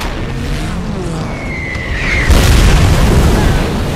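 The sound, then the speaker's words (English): Bomb blasts and anti-aircraft flak in a naval air attack on the battleship Yamato: a low rumbling bed, a brief whistling tone, then a heavy boom that swells into a loud, sustained roar. “Hell divers diving at Yamato slam her with 1,000-pound bombs and are shredded by AA on the way out, then chased to the horizon by booming flak.”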